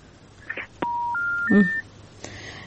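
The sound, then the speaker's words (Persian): Phone line tones sound after a telephone call is cut off: a short beep, then three steady electronic tones stepping upward in pitch one after another, followed by a faint click. “بازم تماس از اینا قطع شد.”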